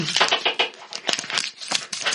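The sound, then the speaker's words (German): A piece of tofu dropped into hot fat, sizzling and crackling in dense, uneven bursts of spitting noise that pulse up and down without pause. “Boah, warte mal, ich lasse mal gerade ein Stück Tofu in das heiße Fett rein. Oh, oh, das, oh, das riecht aber, riecht aber gut.”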